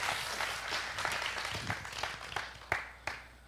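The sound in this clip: Audience applause welcoming a speaker onto the stage, a faint wash of steady clapping that thins out near the end into a few scattered separate claps.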